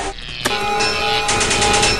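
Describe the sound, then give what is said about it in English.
A flashlight sound effect in a video game: a loud, harsh, noisy burst with a sharp crack near the start, followed by rapid stuttering pulses that keep the level high throughout. “That was the flashlight, so that no rats will come by this level here.”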